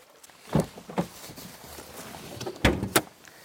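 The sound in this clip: Opening the front trunk lid of an Audi Q8 e-tron Sportback, which has a prop rod that swings aside: a few soft mechanical clicks and clunks against a quiet background, two near the start and two near the end.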